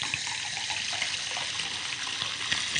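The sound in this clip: Water pours into a glass in a steady, continuous trickle with a bright splashing hiss that holds at an even level throughout, with no talking.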